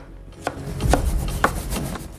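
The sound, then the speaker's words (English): A knife chops a tomato on a cutting board in a home kitchen, making a few firm, regular cuts about half a second apart. Each cut is a crisp thud with a light scraping rub. “At home, Karen chops a tomato on a board.”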